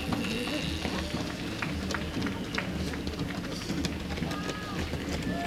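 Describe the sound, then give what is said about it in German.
Runners' footsteps at a road race on an uphill stretch: many rapid, overlapping patters over a steady background, with voices present. “Die Streckenkontrolle kommt. Die ersten Läufer kommen.”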